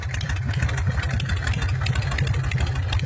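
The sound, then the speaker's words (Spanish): Harley-Davidson motorcycle engine idling with a steady, loud, low, lumpy throb and a fast uneven pulse of firing beats, plus a mechanical clatter on top. No voices. “Ahí encendió la bestia el amigo, ahí está el Harley, escuchá el motor Harley, a ver.”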